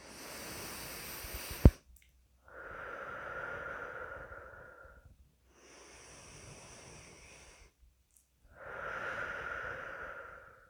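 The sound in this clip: Slow, long breaths during a breathing exercise, each lasting two to three seconds and separated by short pauses, airy and fairly faint.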